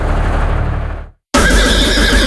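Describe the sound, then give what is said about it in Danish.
Horses neigh in an advert for spring harness racing at a trotting track. A loud, harsh whinny is cut by a brief silent gap, then a second loud burst of horse sound follows. “Kom og mærk suset, når hestene flyver afsted.”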